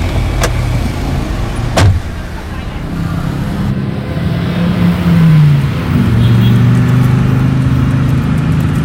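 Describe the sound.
A car starts and drives off: two sharp clicks come early, then a steady low engine hum whose tone shifts and climbs as the vehicle moves, continuing to the end.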